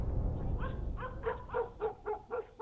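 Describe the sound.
A pack of dogs barks along a roadside. A rapid run of many barks, some with a whining, yelping edge, sounds over a low rumbling background.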